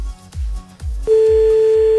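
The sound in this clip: A telephone line tone follows a cut-off call: a steady mid-pitched electronic drone starts abruptly halfway through, over a low pulsing thump that runs the whole time.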